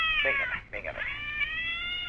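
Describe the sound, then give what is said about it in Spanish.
A cat meows in a loud, drawn-out, tonal yowl that holds for about two seconds with a brief break partway through. “Otra vez el gato.”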